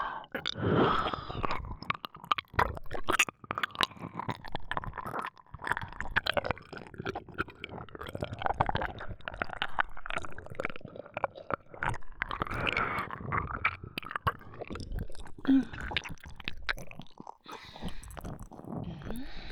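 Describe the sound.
Wet mouth chewing and nibbling on an ear, a dense, steady stream of many soft clicks, smacks and squishes that runs the whole way through with no talk.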